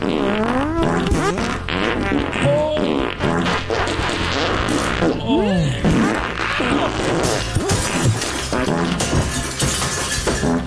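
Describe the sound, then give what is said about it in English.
A rapid montage of fart sounds, one after another, loud and varied in pitch, with wet sputters, squeaky rising and falling tones and buzzy blasts, run together with no gaps for about ten seconds. “And now here's a montage of other fun farts.”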